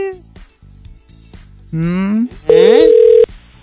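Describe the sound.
A telephone dialing a call: after brief talk, a rising tone and then a steady, loud electronic tone sound for under a second each before ending abruptly.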